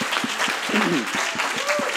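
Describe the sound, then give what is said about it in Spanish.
Steady, rhythmic clapping from a church worship audience praising the Lord, with sharp claps falling at a regular quick beat and a faint tonal sound drifting through the middle. “Let's clap our hands in Spanish to the Lord.”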